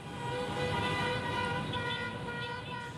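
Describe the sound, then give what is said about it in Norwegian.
Angry taxi horns blare at a protest by taxi drivers against a disputed ride-hailing company, a loud, steady sustained horn tone holding without a break for the whole clip. “Han tar en pause fra den illsinte tutingen.”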